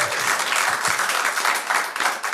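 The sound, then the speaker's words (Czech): An audience applauds at a talk show: steady, thick clapping from many hands that stays fairly even throughout, dipping slightly near the end. “Možná jim taky chutnal potlesk, zatleskáme jim tam nahoru.”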